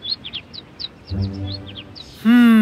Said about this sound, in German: Oh, hallo, kleiner Vogel.